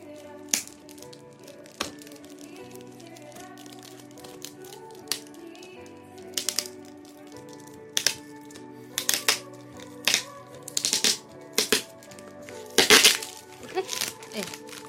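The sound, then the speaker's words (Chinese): Plastic packaging around a small plastic figurine toy being pulled apart: many sharp cracks and snapping clicks, sparse at first, then clustering into quick loud bursts toward the end, over a steady low tonal background. “设计的很合理，一拆就全拆开了”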